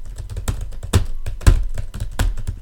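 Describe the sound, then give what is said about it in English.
Fast typing on a computer keyboard: a steady run of irregular plastic clacks, with a few heavier keystrokes standing out, with no voices over it. “Type faster.”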